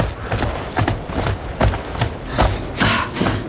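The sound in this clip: Horses' hooves clop as the animals walk into the stable, an uneven but steady series of sharp knocking hoof falls over a dull rumbling background.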